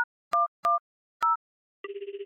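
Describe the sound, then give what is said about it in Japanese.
A phone is dialled to call the police: a few short dual-tone keypad beeps, each separated by a brief silence, then a steady pulsing ringing tone. “ってことで、今から通報しまーす。”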